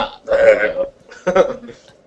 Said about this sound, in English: Told him to market that belch.